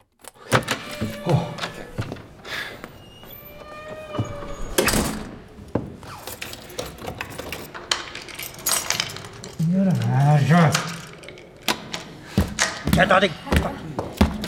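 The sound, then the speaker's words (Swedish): A locked door lock rattled by someone trying to get out: repeated metallic clanks, jangles and thuds of the handle and lock in irregular bursts, with a person speaking in between. “Jag kommer inte ut! Har de låst in mig? Vad är det här för jävla lås?”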